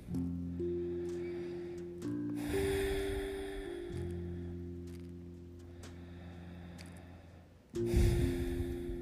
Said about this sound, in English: We want to begin to breathe deeply.